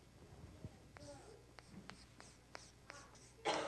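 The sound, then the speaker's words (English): Pen scribbling on paper makes many short, quick scratching strokes in an uneven rhythm, mostly faint, ending with a louder burst of scratching. “whenever I begin to write, I'm going to scribble because I don't pay much attention to it”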